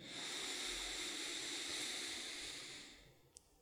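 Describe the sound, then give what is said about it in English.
A deep inhale through the nose during a guided breathing exercise: a steady, airy hiss lasting about three seconds, fairly faint, easing off at the end before a tiny click. “Deepest breath you've taken all day. In through the nose, deep, full, connected breath in.”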